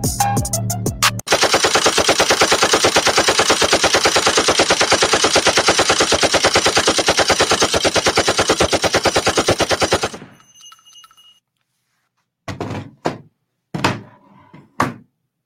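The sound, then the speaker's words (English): Rapid machine gun fire rattles in one dense, loud, sustained burst of about nine seconds after a few opening shots. It cuts to silence, then a few scattered heavy thumps follow. “Shots have been fired in this motherfucker”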